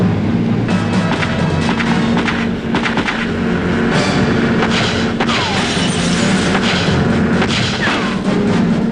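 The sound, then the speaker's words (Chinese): Gunfire rings out in a fierce gunfight at sea between fleeing speedboat occupants and police. Many sharp shots crack over a loud, steady motorboat engine roar. “他们合作与开始行动的警方在海上展开了一场激烈的枪战。”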